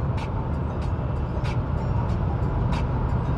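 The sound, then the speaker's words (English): Steady road rumble of a car cruising on a highway at about 70 on cruise control: a continuous low drone with a few brief, airy swells of hiss and no talking. “See, what is the speed limit? I think it's 70. Got it on cruise control a little bit. I think this is the third time I made this drive.”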